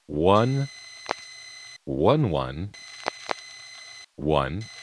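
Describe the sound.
Revertive pulses on a telephone call to a 0000 number in a Bronx exchange: single sharp clicks over a steady background tone, separated by louder warbling, sweeping tonal bursts.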